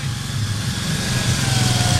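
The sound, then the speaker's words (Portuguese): A tractor engine running at a village festival, a loud steady low throbbing rumble with a rapid regular pulse and a faint high whine, heard alone without talking. “Aqui vem um trator”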